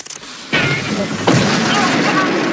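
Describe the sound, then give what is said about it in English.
Explosions of a figure bursting apart in a flash of white light: two loud booming blasts, the first about half a second in and a sharper one near 1.3 seconds, each spreading into a broad, sustained roar. “A moment later, and he explodes again.”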